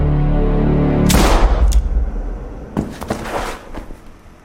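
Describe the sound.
A gunshot rings out in a TV drama scene: one loud, sharp blast about a second in, followed a moment later by several lesser bangs and clattering bursts.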